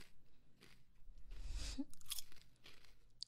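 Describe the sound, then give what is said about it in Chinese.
Crunchy, seaweed-flavoured snack being chewed: a few sharp, brittle crunches and bites mixed with softer chewing, fairly quiet and with no talk. “怎么样啊？好不好吃啊？味道不错吧？这个是海苔味的哦。”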